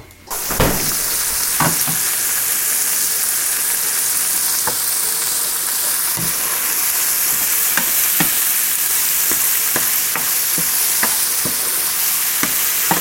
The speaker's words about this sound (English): first I sauteed the onion or the leek on the stove in olive oil and after a few minutes added the spinach